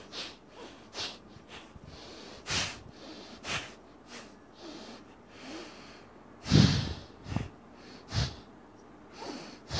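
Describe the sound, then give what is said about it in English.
Quick, forceful breaths in and out through the nose during a breathing exercise with the stomach pushed in. Many short, rhythmic snorting bursts of air, irregularly spaced, one exhale noticeably louder than the rest. “To inhale and exhale, fatafat. Inhale, exhale.”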